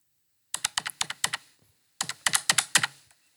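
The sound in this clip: Typing on a PC computer keyboard: two bursts of rapid, crisp keystrokes, each a quick run of sharp clicks separated by a short pause, with no voices.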